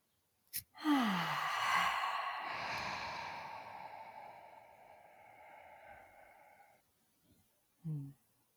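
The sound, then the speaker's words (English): Deep guided-relaxation breath, in through the nose and out through the mouth: one long, airy, sighing breath that fades slowly over about six seconds, then a brief quiet gap and a short breath at the end. No talking. “And we'll take a big inhale in through our nose, and then we're going to exhale out through our mouth. So inhaling.”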